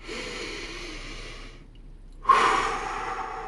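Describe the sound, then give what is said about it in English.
A deep breath: a long, airy rush of breath, a brief near-silent pause, then a second, louder and fuller breath that fades out slowly. “This is, you guessed it, your weekly reminder to take a deep breath.”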